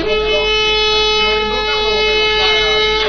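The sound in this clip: A call horn like a hunting horn sounds a steady, sustained tone with bright overtones, holding for about three seconds beneath ongoing talk.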